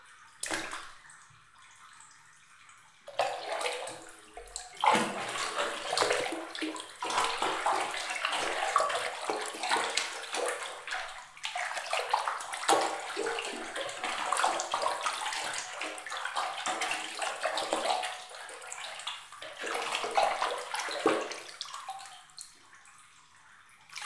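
Hot water filling a bathtub, scented with rose: a steady, full rushing splash runs for about twenty seconds after a few quiet seconds, then eases off toward the end.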